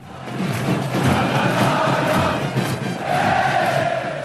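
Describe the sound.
Hammarby football fans singing in the stands at Söderstadion during a final: a loud, dense, sustained wall of massed voices that swells slightly and holds steady without a break.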